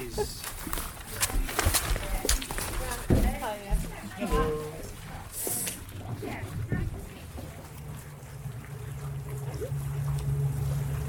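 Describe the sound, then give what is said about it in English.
Low, steady engine drone of a ferry crossing the water from Oban to an island, growing more prominent in the second half, with people talking over it early on. “I watch as tiny figures spill off the boat and onto the island in the distance. A few minutes later, the ferry is back on its way and we're next in line.”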